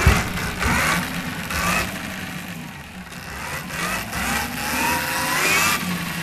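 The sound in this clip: A motocross motorcycle engine revving while its rear wheel spins heavy metal rollers on a training stand; the steady drone swells and eases a few times as the throttle opens and closes.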